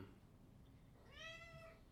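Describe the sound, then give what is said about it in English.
A cat gives a single drawn-out meow that rises and then eases down in pitch, quiet over a faint low background hum. “Yeah, there's a Hemingway quote that this cat is very derailing. But there's a Hemingway quote I always think about. It's an odd Hemingway quote. First, this cat is always derailing.”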